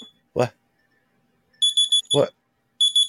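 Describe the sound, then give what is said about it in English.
An electronic alarm goes off in short, high-pitched beeps that come in quick bursts of a few pulses, separated by brief moments of speech. “What is that? That's my alarm.”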